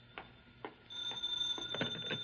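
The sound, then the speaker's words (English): A telephone rings in a house: a few soft ticks come first, then a bright, sustained bell ring begins and continues, all fairly quiet. “Now the phone.”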